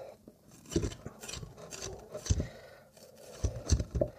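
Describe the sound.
A knife cuts onions while cooking burekas, giving a few faint, sharp chopping knocks at irregular intervals against a quiet background.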